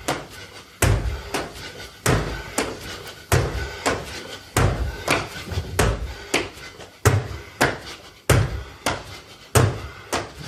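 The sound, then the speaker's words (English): Many heavy thuds from a person doing squat jumps, knees tucked high and arms up, landing repeatedly on the floor. The loud, booming impacts come at a steady rhythm, each with a brief low rumble. “Yeah, that sound you're hearing is him bouncing.”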